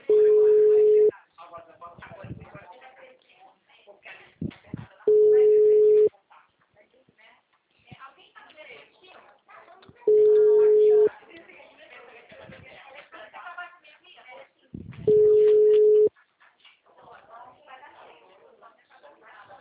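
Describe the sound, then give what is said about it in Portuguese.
A failing telephone call gives a busy tone: four long, steady, mid-pitched beeps about five seconds apart, with people talking in the gaps between them. “Diz que essa ligação tá caindo, que bênção. Está sendo encaminhada para a Caixa Postal e estará sujeita a cobrança.”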